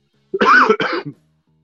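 A single cough or throat-clear during a church sermon comes in two quick rough bursts with a brief trailing rasp. It sounds alone against near silence.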